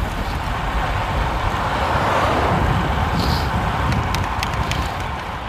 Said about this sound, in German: So. Jetzt fahren wir hier auf der Autobahn. Aber ich glaube, wir biegen jetzt hier rechts ab und fahren über die, durch den Sand.